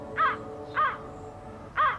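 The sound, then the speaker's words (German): Crows from an early-spring flock in Germany in early March give three harsh, loud caws, evenly spaced, against faint background noise. “Doch erste Vogelschwärme kündigen etwas Neues an.”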